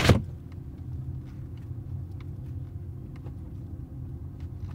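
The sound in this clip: Inside a sound-insulated Citroën car cabin, a low, even road rumble stays faint and steady after a brief click at the start.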